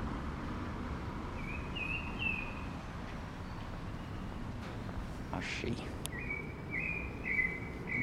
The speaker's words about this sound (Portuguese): Mais um sabiá.